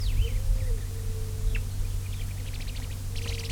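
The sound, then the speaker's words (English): Two birds interacting, giving faint thin chirps and short rapid trills that sit above a steady, loud low rumble. “Two birds interacting.”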